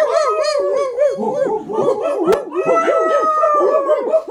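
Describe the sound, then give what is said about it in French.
Several dogs howl together in loud, overlapping, wavering wails that rise and fall continuously, with yips and whimpers mixed into the chorus. “Les chiens, tais-ou.”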